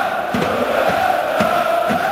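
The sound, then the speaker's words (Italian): Nuremberg football fans cheering and chanting rhythmically at a match. A steady crowd roar carries regular pulses of massed voices. “Questi sono i tifosi del Norimberga che stanno esultando. Cori ritmici.”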